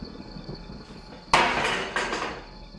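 A dining table set with a meal is kicked over. A loud, sudden crash of clattering dishes and glass is followed by a second crash about half a second later, then a fading rattle.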